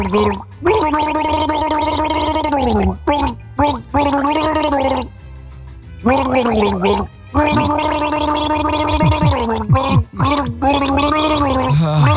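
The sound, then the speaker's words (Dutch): A person gargles as part of a song, the throat bubbling through water in long sustained, wavering tones that slide up and down in pitch. The loud gargles come in stretches broken by short pauses. “er worden natuurlijk ook mensen misselijk van het gegorgel”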